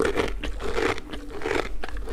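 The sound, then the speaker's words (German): Horses crunching treats given as a reward after work on a farm: steady, fairly faint chewing with many overlapping crisp crunches and bites. “nach getaner Arbeit bekommen Eddie und Foppe noch eine Belohnung und die lassen sie sich schmecken.”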